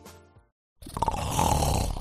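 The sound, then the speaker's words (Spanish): Snoring from a sleeping adult: a brief soft sound, a short silence, then a loud, rough, sustained rasping breath. “¿Sabes que casi la mitad de los adultos ronca de forma ocasional?”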